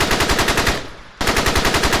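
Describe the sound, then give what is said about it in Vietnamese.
Heavy machine gun fire during a battle in a rubber plantation hamlet, delivered as loud, rapid, evenly spaced shots in a continuous stream. The fire breaks off briefly in the middle, then resumes just as fast. “Đạn súng đại liên của các anh bộ đội Cụ Hồ vãi ra như mưa.”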